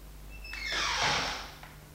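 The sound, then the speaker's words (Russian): Linen being put away into a wardrobe makes a soft sliding rustle. It swells and fades over about a second and stays faint throughout. “Что ты кладешь в шкаф? Белье кладу.”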